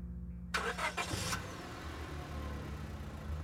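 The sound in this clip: A large white pickup truck's engine starts and drives away: a short burst of mechanical noise, then a low steady rumble. Faint throughout.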